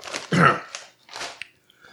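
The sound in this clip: Crunching of a hot, spicy potato chip from a bag, heard as a few crisp, crackly bites with one louder burst, then quieter chewing, without talk.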